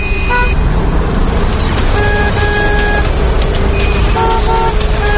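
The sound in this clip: Car horns honk repeatedly in congested city traffic: a few sustained, steady horn tones sound over a loud, continuous rumble of engines and road noise.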